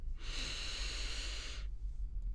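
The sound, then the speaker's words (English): A slow, deep breath during a guided breathing exercise comes as one soft, airy hiss lasting over a second. It is quiet and heard alone, with no talk. “trying to focus our full attention on the sensation of the breath. Breathing in”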